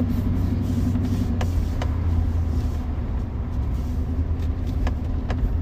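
Steady road rumble of a car driving past abandoned buildings, a continuous low engine and tire drone with no voices.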